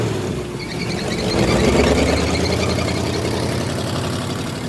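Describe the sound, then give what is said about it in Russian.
A police patrol car's engine runs with a steady mid-low rumble. It grows somewhat louder midway through and then holds, with no voices. “Полицейский садится в патрульную машину и уезжает.”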